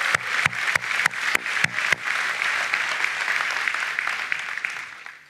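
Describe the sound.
Church audience applauding as a couple is welcomed: distinct sharp claps at first, then thickening into dense, steady applause that fades away at the end.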